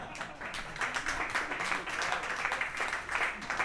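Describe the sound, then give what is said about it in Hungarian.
Audience applause for musicians at a concert, fairly faint, with steady rapid clapping from many hands that swells slightly and continues without pause. “Egy nagyon nagy tapsot.”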